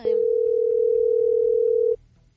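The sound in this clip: A telephone ringback tone plays during a call: one steady, loud, mid-pitched tone that holds for about two seconds, then cuts off into near silence.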